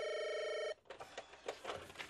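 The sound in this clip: A telephone rings with a bright, buzzing bell tone for under a second and is then cut off. Quieter, uneven sounds follow.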